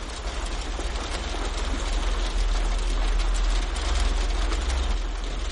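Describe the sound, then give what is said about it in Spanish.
Heavy rain pours down in a steady, dense hiss with a low rumble beneath it, continuous and unbroken throughout. “Llueve copiosamente.”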